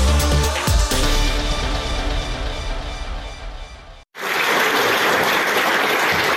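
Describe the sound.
Theatre audience applause after a play: a short break, then dense, even clapping fills the last couple of seconds, loud and steady, following a busier stretch of sound.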